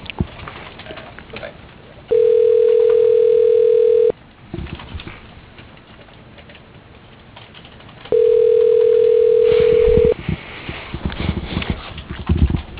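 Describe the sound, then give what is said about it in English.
Telephone ringback tone on a call being placed: two long, steady, even-pitched rings, each about two seconds long, separated by a long pause, over a low hiss. “Dialing.”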